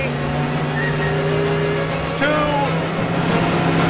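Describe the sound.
A car engine drones loudly and steadily as the car accelerates toward a group of people. The tone shifts slightly about halfway through.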